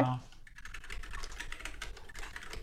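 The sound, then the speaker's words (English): Rapid typing on a keyboard with Kailh Silver linear switches, with many soft, closely spaced keystrokes clattering steadily throughout at a moderate level. “So I got a linear switch right here. I have the Kale Silver. So I'm just gonna do a bunch of typing right here on the recording,”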